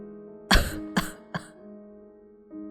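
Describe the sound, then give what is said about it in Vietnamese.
A 54-year-old man ill with cancer coughs violently while clutching his chest: three harsh, rasping coughs in quick succession, the first loudest, over a steady low tonal background. “Nói đến đây, ông ta lại ôm ngực ho lên sặc sụa.”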